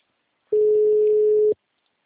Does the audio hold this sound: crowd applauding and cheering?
no

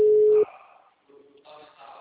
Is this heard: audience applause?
no

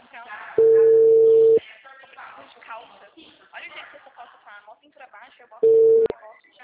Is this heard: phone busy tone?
yes

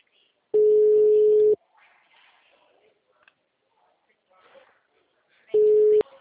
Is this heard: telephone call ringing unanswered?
yes

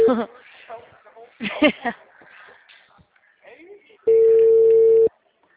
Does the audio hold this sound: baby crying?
no

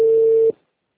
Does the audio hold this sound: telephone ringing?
yes

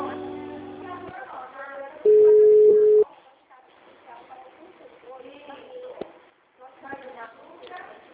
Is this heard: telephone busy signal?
yes

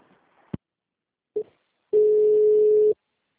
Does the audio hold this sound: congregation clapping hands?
no

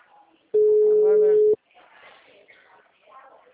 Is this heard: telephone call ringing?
yes

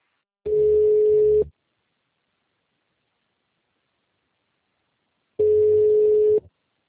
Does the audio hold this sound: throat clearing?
no

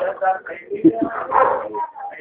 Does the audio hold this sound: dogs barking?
yes

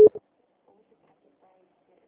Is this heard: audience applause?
no

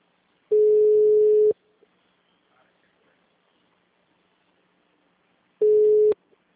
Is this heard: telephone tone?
yes

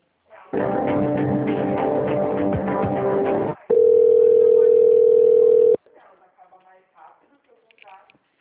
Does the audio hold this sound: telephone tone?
yes

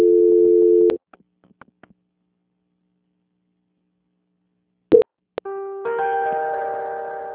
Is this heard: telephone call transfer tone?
yes

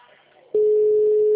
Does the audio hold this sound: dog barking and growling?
no

